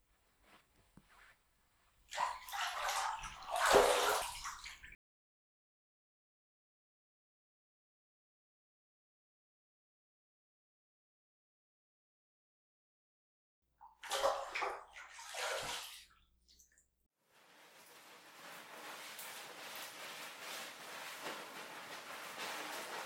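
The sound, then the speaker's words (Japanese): Bath water while washing the body: two short bursts of splashing and sloshing separated by a long silence, followed by a soft, steady rush of water that continues to the end, all fairly faint. “私も体を軽く洗うから、湯船に浸かってちょっと待っていてくれ。”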